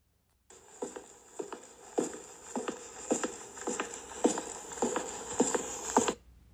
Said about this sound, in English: What is it, Isaac? Footsteps. That's correct.